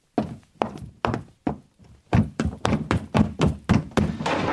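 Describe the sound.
Foley footsteps on wooden boards standing in for someone running upstairs in a film: many dull thuds, five evenly spaced at first, then a quicker, denser run of steps.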